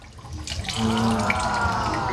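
Water pouring into a coconut fermentation mix, a splashing stream that swells after a quiet start and then runs on steadily.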